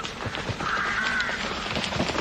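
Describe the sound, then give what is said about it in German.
A flock of crows cawing loudly, a dense, continuous harsh clamor with one drawn-out call standing out near the middle. “Lautes Gekrächze. Ein Schwarm Krähen, der plötzlich vom Himmel zu fallen schien.”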